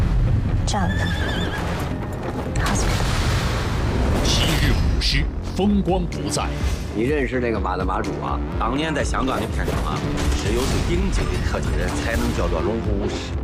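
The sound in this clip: A horse whinnies on a Hong Kong film set during a riding stunt scene. The neigh wavers through a loud, dense mix, with voices talking over it.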